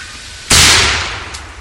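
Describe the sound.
A single gunshot fired at a wild turkey on a fall hunt: one sudden, loud, sharp blast that decays over about a second, with no voices.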